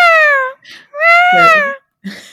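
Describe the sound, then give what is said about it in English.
A human voice imitates a peacock call: two loud, high, wailing cries, each followed by a shorter, softer sound. “there's a peacock and she's like, what's the peacock sound like?”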